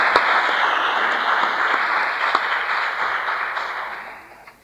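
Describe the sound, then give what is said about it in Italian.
Audience applause with dense, even clapping at a steady level for several seconds before it fades away at the end. “Mosele Gabriella, che pure è assente, e quindi un applauso anche se non è presente.”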